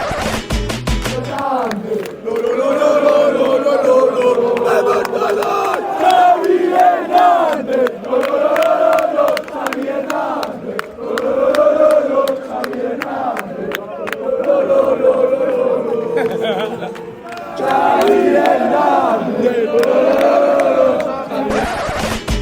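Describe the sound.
Football fans in the away section of a stadium chant a player's name: a huge, sustained chorus of voices sings in a steady melodic rhythm, with brief lulls between repetitions and scattered claps within the din.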